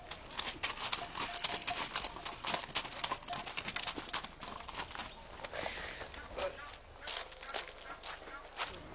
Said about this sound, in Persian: یه اسب آماده زین شده، چقدر قشنگه.